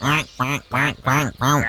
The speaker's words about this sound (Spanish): Y en la lagunita del rancho los patos andaban felices, nadando sin deberla ni temerla.